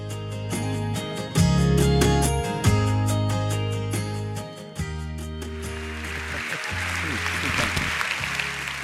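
Audience applause welcoming NT Wright at The Rock Church swells into a dense, steady patter in the second half, layered over rhythmic music that plays throughout.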